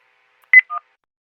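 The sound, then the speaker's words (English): Telephone keypad tones sound as 1 is pressed to accept an incoming jail call: two brief, clear electronic beeps in quick succession, the second lower and softer. “To accept this call, dial 1 now.”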